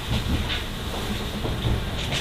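A three-car train runs on the rails with a continuous rumbling drone and a steady hiss layered on top. The sound stays even throughout, with no speech.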